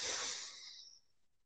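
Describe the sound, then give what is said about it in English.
A slow, deep inhale during a guided breathing exercise, a soft airy hiss that holds steady, then thins out and fades after about a second, heard alone. “And we're gonna take about three deep breaths. You're gonna inhale nice and slow for about five counts.”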